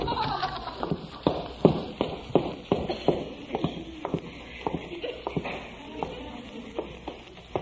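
Footsteps going downstairs inside a house: a steady run of many soft thudding treads with a light shuffle between them, keeping an even walking rhythm throughout.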